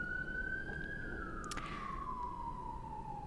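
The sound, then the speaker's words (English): Emergency vehicle siren outside in New York: one steady, faint wail that drifts slowly downward in pitch and carries on alone for the whole stretch. “Sorry about the sirens. I live in New York.”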